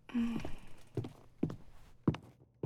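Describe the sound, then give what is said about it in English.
A lock being worked, heard as a few dull clunks and clicks spaced roughly half a second apart, with a soft breathy voice sound at the start and quiet gaps between the knocks. “Yes, that's the lock.”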